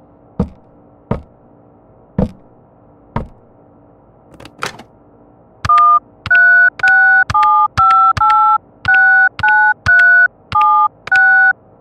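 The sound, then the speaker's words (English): Telephone keypad dialing starts with a few sharp, separate clicks. A rapid run of many loud, evenly paced touch-tone beeps follows, each one a short steady tone of changing pitch. “please call 911 by first dialing the hash key to call an external number.”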